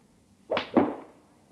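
A golf club swing: a quick airy swoosh in two close bursts, rising sharply and fading within about a second, alone against quiet.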